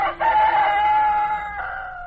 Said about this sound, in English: The cock crows. It's dawn.